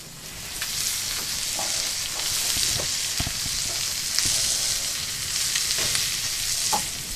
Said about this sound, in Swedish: Alltså det här, det här är eh, en metod som man använde sig av förr i världen, att, att det var så här man fick fett i pannan förr. Det var så här man fick fett för att, att smöra så, så var dyrt.